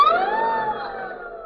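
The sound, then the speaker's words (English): A fire alarm siren wails as firefighters board their truck: one loud, steady, sustained tone that wavers slightly in pitch, with no voices over it. “Come on, boys, the alarm is sounding. Get on the truck.”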